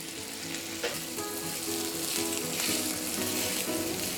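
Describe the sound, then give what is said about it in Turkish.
Boiled couscous toasts with a little olive oil in a hot pan, giving a loud, steady hissing sizzle with occasional stirring and light scraping throughout, and no talking. “haşladığımız kuskusu çok az zeytinyağı ile beraber tavada kavuracağız. Zeytinyağını ekliyorum. Tava sıcaktı. Kuskusu kavurmuştuk iyice.”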